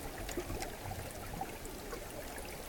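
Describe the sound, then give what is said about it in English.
Meltwater trickles from melting glacier ice in a soft, steady, continuous flow with faint scattered drips and no voices. “creating recordings of our melting ice, of climate change, a sonic record of changing climate as told through the ice”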